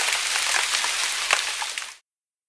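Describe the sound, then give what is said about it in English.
Steady rain hisses as a dense, even wash of noise that cuts off abruptly near the end. “On Monday, it's rainy.”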